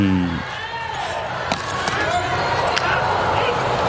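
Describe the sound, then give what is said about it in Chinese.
Volleyball serve by a Japanese substitute player, heard as a few sharp ball strikes cutting through steady crowd noise while commentators talk throughout. “日本队这边换上了大冢达宣，上来替补发球。”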